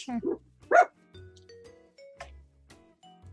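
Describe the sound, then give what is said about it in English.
A dog that had been asleep under bedcovers barks twice, short and high, within the first second, and quieter low sounds follow. “That is my dog.”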